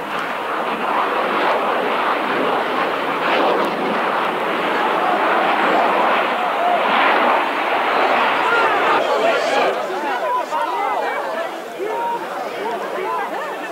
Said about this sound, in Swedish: Piloten Lars Rådeström hade gjort ett par överflygningar och girar för att visa upp JAS-planet inför de uppemot halva miljonen åskådarna när någonting händer.